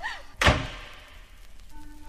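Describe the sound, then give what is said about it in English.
A door is shut with a single heavy thud, followed by a brief fading ring and quiet. “Come on in so we can lock the door.”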